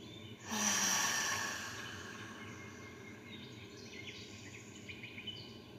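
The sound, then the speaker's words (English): A deep breath drawn in through the nose with an audible exhale, part of a guided breathing exercise: one loud, airy rush of breath near the start, then fading to a softer, steady hiss. “Breathe in deeply through your nose. Hold at the top for a moment. And then exhale audibly, letting it all go.”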